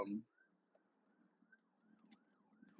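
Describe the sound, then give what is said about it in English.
An ambulance siren sounds faintly as it passes a car on the road, its wail rising and falling in repeated sweeps over a low, steady background hum. “I got to pull off to the side of the road. You know, we out here driving, so an ambulance is coming by.”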